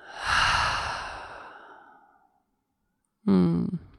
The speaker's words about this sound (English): Inhale. Open mouth, exhale.